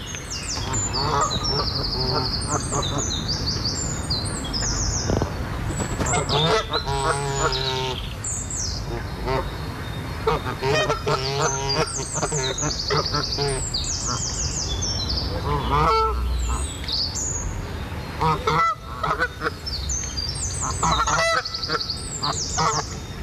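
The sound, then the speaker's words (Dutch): Canada geese honking in Brussels, a dense run of many deep, nasal calls overlapping one another throughout, loud and steady with hardly a pause. “Devant le Bernage du Canada. Bernage du Canada. Ça s'appelle Bernage du Canada? Canadese gans.”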